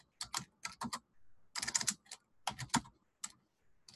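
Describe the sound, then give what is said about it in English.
Typing on a computer keyboard while working in a text document, with many crisp key clicks in irregular bursts, some rapid clusters and brief pauses between them. “So in the future, when we type in”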